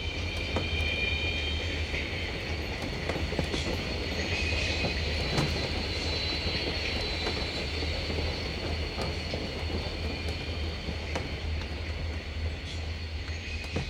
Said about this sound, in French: Le bruit macabre des roues des wagons au contact avec les rails nous abétit, comme un somnifère, et nous laisse sans réaction.